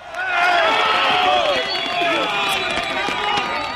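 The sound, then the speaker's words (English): Volunteers clearing earthquake rubble by hand in Pereira, Colombia, cheer as a woman is pulled out alive: a dense, sustained crowd of shouting and cheering voices with some clapping. “A sound that's often only heard in the first 2 or 3 days after a disaster like that. Volunteers removing rubble by hand in the city of Pereira and then being rewarded as they pull a woman out alive.”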